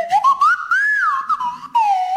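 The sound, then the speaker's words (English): Someone whistling a familiar pop melody alone, a clear, pure tone gliding up and down through short phrases separated by brief gaps. “What are you going to whistle for us today?”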